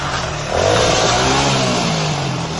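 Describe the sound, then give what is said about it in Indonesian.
A motorbike arrives outside at night, its engine a loud, continuous drone with wavering, revving tones throughout. “Di luar, terdengar suara motor datang.”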